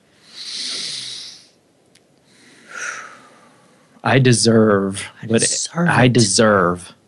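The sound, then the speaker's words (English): A group draws a deep breath together during a guided breathing moment. A long, airy inhale is followed by a shorter breathy exhale, and then a voice starts speaking. “How about we all take a nice breath on that?”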